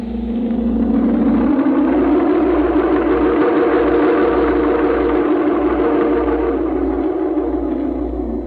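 A truck engine runs with a steady, low, droning hum that stays constant and unbroken throughout, with no voices over it.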